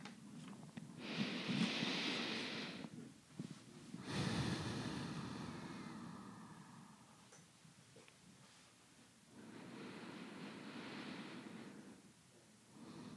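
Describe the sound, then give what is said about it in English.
Slow, deep breathing with long inhales through the nose and exhales through the mouth. A few soft, drawn-out breaths rise and fade alone with no talk. “Feel your chest rise and your belly rise and fall. I'll demonstrate for a few breaths and you follow along at your own pace.”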